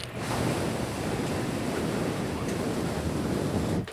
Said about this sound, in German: Mach mal das Gebläse aus. Das Gebläse.